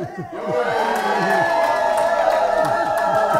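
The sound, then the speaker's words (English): A live studio audience cheers loudly, a sustained roar of many voices with high whoops and shouts rising over it, and some clapping mixed in from start to finish. “And that was an actual live audience. I'm going to prove it because they're going to do it again and they're not going to sound identical.”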